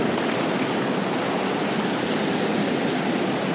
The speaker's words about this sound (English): I'll just pause then because the tide came right in.